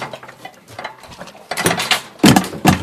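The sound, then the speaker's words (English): Metallic clattering and rattling from a coffee maker with urns being tilted and shaken behind a cafe counter, heard as several sharp bursts that grow louder toward the end. “He holds a creamer under the coffee maker's spout, turns another valve, then peeks inside one urn. He tilts the machine and gives it a shake.”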